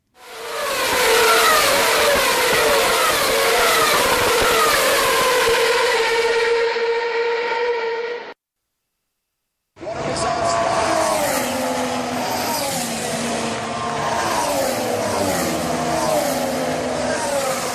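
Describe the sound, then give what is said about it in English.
Formula One cars racing in Melbourne: loud, high-pitched engine whine from the 2013 race, then a short silence, then the 2014 cars with lower, gruffer engine tones that hold steady and loud throughout. “On the same track in Melbourne, Australia, of the sound of F1 racing last year versus this year. You'll hear a 2013 race first, then a pause, then the sound from March of this year.”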